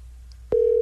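A telephone call is dialed: after a short near-silent stretch, a single steady, even-pitched line tone begins abruptly and holds to the end.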